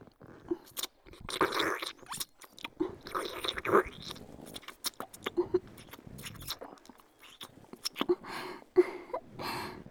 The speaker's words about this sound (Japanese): 甘いディープキスだよ。